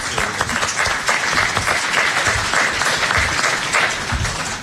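An audience claps for a camp group, a continuous, dense wash of applause that stays steady and loud from start to finish.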